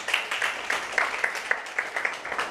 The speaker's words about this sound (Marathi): आपल्या या मैत्रिणीसाठी एकदा जोरदार टाळ्या होऊन जाऊ द्यात.